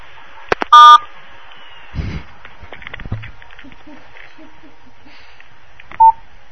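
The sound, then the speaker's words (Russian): Telephone keypad tones of an incoming call: two short, loud electronic beeps, one near the start and one near the end, with faint clicks and low noise between them. “У нас есть звонок. Сейчас выслушаем вопрос.”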